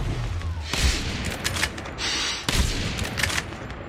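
Sniper gunfire in the video game Call of Duty Mobile: sharp, booming shots ring out among scattered bursts of gunfire, with two especially strong, abrupt cracks standing out.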